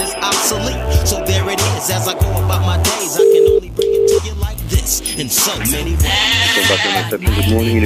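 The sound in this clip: Telephone hold audio follows an automated hotel reservations menu. Dense, loud, music-like sound runs over a pulsing low bass line, with two short steady beeps near the middle.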